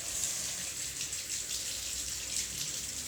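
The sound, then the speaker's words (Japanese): Hot water runs from a tap in a steady, even, hissing rush with no pauses or talk, fairly soft throughout. “じゃあちょっとお湯入れていきますね。ちょっとお湯出るまで時間かかるかもしれない”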